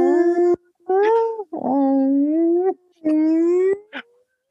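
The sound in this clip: People imitate whale noises with their voices, making four long, wavering, howl-like tones that slide and hold, separated by short gaps, then a brief final yelp.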